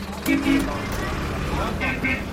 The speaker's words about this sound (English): Back up here at the border crossing, there are still lots and lots of cars coming across. A van just passed with a fridge freezer strapped to the roof.